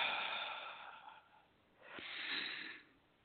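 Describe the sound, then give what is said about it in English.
A single deep breath in and out, heard as two soft, airy breath sounds with a brief gap between them, alone and fairly quiet. “So take a deep breath, breathe it in, and exhale it out.”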